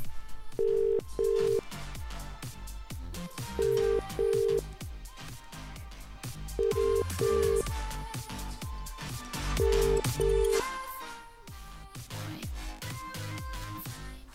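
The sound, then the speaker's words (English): An outgoing telephone call ringing out late at night, with four double rings in a steady, evenly spaced pattern over loud rhythmic background music. “They're gonna love getting a call.”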